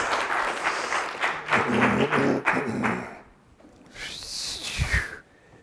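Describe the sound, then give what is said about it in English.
A church audience applauds to welcome a pastor with about three seconds of steady clapping that then dies away. A short voice follows over a quiet background. “So if you would put your hands together and let's welcome Pastor Webb this morning.”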